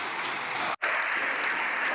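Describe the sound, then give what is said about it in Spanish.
Applause in a parliament chamber as the session closes: a thick, even wash of clapping that cuts out abruptly for a split second early on, then resumes just as loud to the end. “Evidentemente hay unos que gritan dimisión, dimisión, en 4 compases, y hay otros que aplauden como si hubiera ganado una etapa del Tour de France.”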